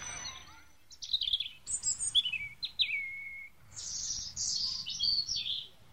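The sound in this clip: Caged small songbirds chirping: a run of high, bright chirps and short whistled phrases, some notes sliding downward, loud and lively over a low steady rumble, with no talk.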